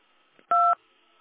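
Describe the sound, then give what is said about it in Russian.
Single touch-tone key press while dialing an extension number: one clean two-tone beep lasting about a quarter second, clear against a faint background hum. “Если вы знаете добавочный номер сотрудника, наберите его в тоновом режиме.”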